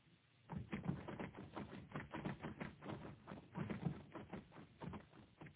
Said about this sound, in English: He's typing.